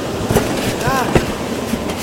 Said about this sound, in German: Hey, der Zug wird langsamer!